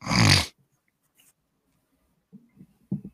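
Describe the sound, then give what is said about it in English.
One loud, breathy inhale rushes straight into the microphone, followed by near silence and a few faint, brief rustles and soft sounds toward the end. “Oh, it's just every time you breathe in, we can hear it.”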